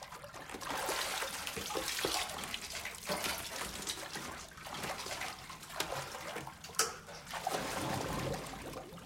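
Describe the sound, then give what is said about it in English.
Water churns and bubbles as a diver sinks in and kicks through a narrow rock corridor, a continuous splashing wash with a sharper burst partway through. “Drew watches May sink into the water. May kicks her way through the narrow corridor in the rock.”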